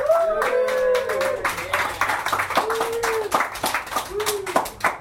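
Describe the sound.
Audience clapping greets a guest introduced on a comedy talk show, a brisk, uneven patter of hands with several voices whooping and calling out over it.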